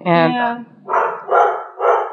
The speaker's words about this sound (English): I apologize for the dog barking. It sounds like someone is coming home.